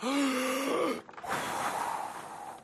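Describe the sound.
A strained voiced hum gives way to a long, breathy exhale of rushing air as someone blows to inflate a giant bounce house.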